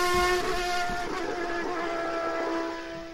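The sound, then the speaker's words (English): A Formula 1 racing engine from the Williams F1 team car gives a steady, high-pitched harmonic whine that holds loud and sustained, easing slightly toward the end. “The Atlassian Williams F1 team car is hitting the pavilion where you can see it up close and personal. Don't just hear the race. Come and experience it for yourself Saturday, the 18th of July. One more time for that noise.”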